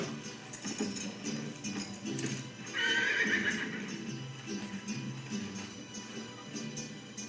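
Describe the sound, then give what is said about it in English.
Horses riding off, steady clip-clop of hoofbeats throughout with a loud, high neigh in the middle, the hooves continuing after it fades. “And here's they're riding off into the sunset.”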